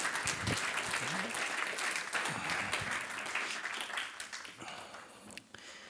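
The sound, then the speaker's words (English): Audience applause welcomes two people onto a church stage: steady, dense clapping from many hands that fills the whole stretch at an even level and thins slightly near the end. “And so would you put your hands together as we welcome them up?”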